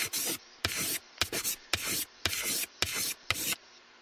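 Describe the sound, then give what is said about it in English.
A pen writing on a pad makes seven scratchy strokes in a fairly regular rhythm, each a dry raspy rub of similar length with brief pauses between. “get out your pen and pad, and we're going to start writing.”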